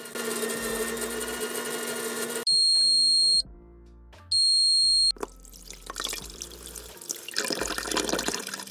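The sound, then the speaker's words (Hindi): An office cafeteria coffee machine dispensing coffee: a steady rushing, pouring noise, broken by two sustained electronic beeps, then more irregular hissing and trickling as the cup fills. “थोड़ी देर काम करने के बाद मैंने सोचा it's time to have a break और मैं जाती हूँ ऑफिस कैफेटेरिया में, जहाँ मैं प्रेस करती हूँ कॉफ़ी मशीन को to get a nice cup of coffee for me.”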